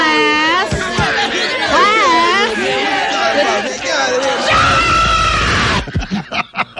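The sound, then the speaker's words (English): Noisy schoolchildren filing into class on the first day of school make a dense din of shrieks, yells and high-pitched chatter throughout, thinning to scattered voices at the end. “It's the first day of school. Kids are starting to file in now. Oh, they're noisy.”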